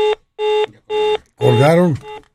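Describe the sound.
A telephone line tone sounds after a caller hangs up: a few identical pulsed beeps in a regular rhythm, with a voice speaking briefly between them before one more beep.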